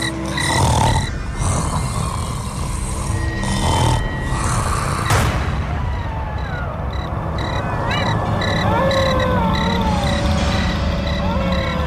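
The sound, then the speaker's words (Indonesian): A person snores in the next room with rough, rasping breaths repeating in a slow rhythm, loud and steady with no talking. “Nanging saka kamar sebelah aku krungu suarane wong ngorok senggar-senggor.”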